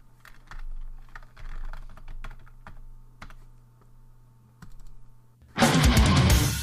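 Rapid typing on a computer keyboard: many irregular clicks and clatters for about five seconds. A loud, dense wash of sound then abruptly takes over at the end.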